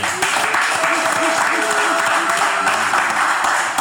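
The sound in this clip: An audience applauds loudly in a dense, unbroken wash of clapping, with shouts and cheering voices mixed in throughout.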